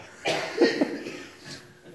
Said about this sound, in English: I'm not going to stand up here and preach and not acknowledge that you're over there coughing.